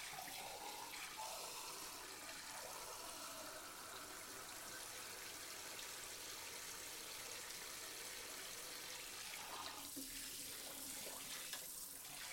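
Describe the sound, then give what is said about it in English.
Running tap water streams steadily over chickpeas being rinsed. The faint, continuous rushing hiss keeps an even level from start to finish. “Let me rinse them first.”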